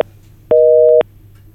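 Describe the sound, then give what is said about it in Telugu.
A telephone busy tone as a caller's phone-in call drops: one steady, loud electronic beep of about half a second, heard alone over a faint low hum. “మీ శ్రోత ప్రయత్నిస్తున్నట్టున్నారు, call cut అవుతుంది.”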